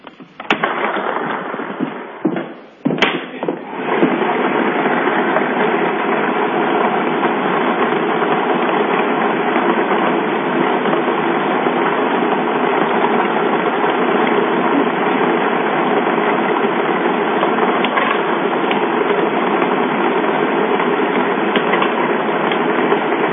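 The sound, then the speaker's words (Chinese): A China Welfare Lottery 3D ball-drawing machine starts with a few clattering knocks, then settles into a loud, continuous whirring rumble that runs steadily for about twenty seconds. “好了，请问公证员，我们可以开奖了吗？ 可以开始。 好的，马上为你启动摇奖机。”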